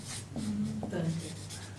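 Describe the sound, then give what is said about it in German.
Words are written more clearly on a board, soft scratchy strokes with brief pauses between them, heard faintly beneath a man's speech. “Ich schreibe es deutlicher, verzeih. Das Tägliche.”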